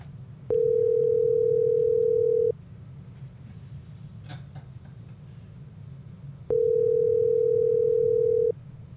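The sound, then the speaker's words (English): A telephone ringback tone plays while a call is placed: two steady, even-pitched rings, each lasting about two seconds, separated by a longer pause with faint background noise and no talking. “I'm about to call my dad back.”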